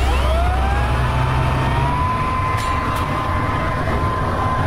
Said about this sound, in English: Probably hear the leaves go into the blower when it finds them.